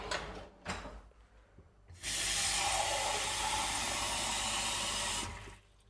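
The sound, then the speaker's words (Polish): Water poured over half a tablespoon of seeds: a loud, steady hissing rush that lasts about three seconds and then stops. A few soft knocks come before it. “Zaraz to zalejmy wodą i one sobie będą absorbowały tę wodę”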